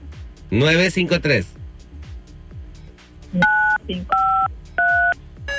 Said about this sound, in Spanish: A ver, marca 953. 95, yo le marqué 5.